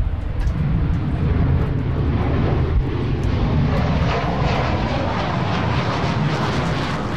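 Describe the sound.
Steady, loud roar of a military jet aircraft going around on approach, a broad engine rumble that holds fairly even throughout with no voices.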